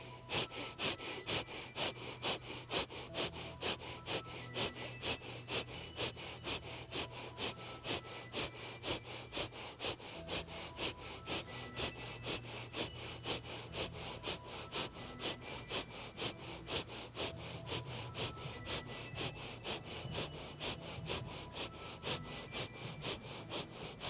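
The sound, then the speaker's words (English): Rapid, forceful nasal breathing from a breath of fire exercise: many sharp, evenly spaced puffs repeat at a fast, steady rhythm with no pause, alone and without talk. “Are you ready? Here we go. Breath of fire, 1 minute.”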